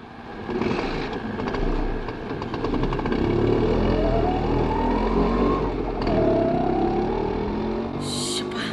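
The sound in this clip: An auto rickshaw engine runs during a ride, its whine climbing in pitch as it accelerates and revs again, over a constant road rumble.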